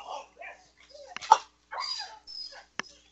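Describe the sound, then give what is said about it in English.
Dog whimpering and yipping, with a few short, high-pitched whines and yips and one sharper yelp, each separated by brief pauses, with no other sound. “That was my dog providing sound effects for me.”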